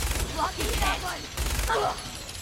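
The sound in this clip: Rapid bursts of gunfire as a player shoots enemies in a video game, with several sharp volleys in quick succession beneath a man's talking.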